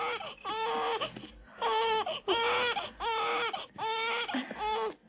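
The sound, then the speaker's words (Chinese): A baby cries in repeated, rhythmic wails. Many strained bursts are separated by brief breaths and stay steady and fairly loud throughout. “嗯乖乖不哭啊，乖，啊，不再讲啊，”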